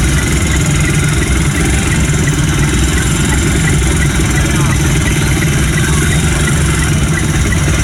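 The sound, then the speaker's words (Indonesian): Dense road traffic at a traffic-light T-junction, heard as a steady, loud rumble of idling and running engines that continues without a break. “nah ini lalu lintasnya memang masih padat ya.”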